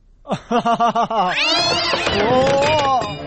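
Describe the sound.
A cat meowing: a quick run of five short, pulsing cries, then a long, loud, wavering yowl that rises and dips in pitch.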